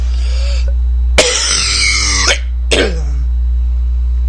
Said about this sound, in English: And I do apologize for my coughing in this segment.